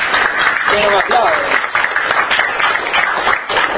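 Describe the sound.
Audience applause at a university talk: dense, continuous clapping that fills the whole stretch at a fairly even level, with a few voices mixed into the crowd noise.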